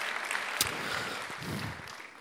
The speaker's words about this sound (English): Come on, little clap there, little clap.